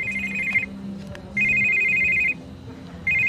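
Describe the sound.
Mobile phone ringtone, a bright, high electronic trill sounding in three bursts with quiet gaps between, the first and last cut off, during a sit-down interview.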